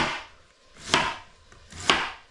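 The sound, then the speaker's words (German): Two sharp knife chops through white cabbage being cut into thin slices, each preceded by a soft swishing cut, evenly spaced about a second apart with no talk. “Dann die zweite Hälfte des Weißkohls klein schneiden. Dünne Scheiben.”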